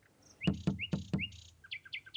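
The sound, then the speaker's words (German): Bird chirping in a series of short, high tweets, with four sharp low thumps among the calls in the first half. A few quick, brighter chirps follow on their own. “Dein Vogel ist da. Hey. Hey, Vogel.”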